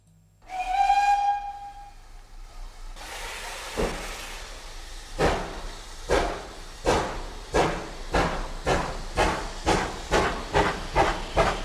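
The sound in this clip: A steam train on a passenger excursion sounds a long, loud whistle as it departs, then releases a burst of hissing steam. Rhythmic chuffs follow, about a dozen of them, coming steadily faster as it pulls away, with no talk.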